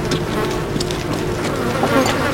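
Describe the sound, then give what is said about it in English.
A thick cloud of flies buzzes over the corpses of men and horses lying on sand, a dense, continuous insect drone that stays loud and steady throughout. “A thick cloud of flies buzzed over the still forms.”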